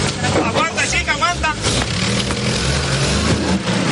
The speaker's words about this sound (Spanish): Tony da media vuelta y se dirige hacia Bayamo.